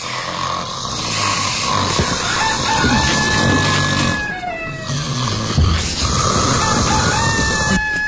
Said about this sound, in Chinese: 又是打鼾，又是打鸣，还让不让人睡了？